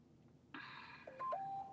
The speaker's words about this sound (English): oh, see, I'm the one with the phone on. Well, hold on. Let me shut that off.